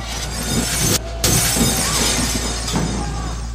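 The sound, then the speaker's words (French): Shop window glass being smashed with canes by a gang in Paris: continuous harsh shattering and crashing, loud throughout, with one brief break near the middle. “des bandes nationalistes vinrent une après-midi briser à coups de canne les vitres de la fameuse boutique d'Ange.”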